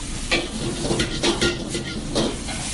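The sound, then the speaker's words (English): Pad thai noodles and egg stir-frying in a wok, a steady sizzling hiss broken by repeated scraping strokes of a utensil against the pan, at moderate loudness with no talk. “into the wok and cook together with the egg. This process is going to take about maybe close to two minutes, 3 minutes until the noodle get very soft and cooked.”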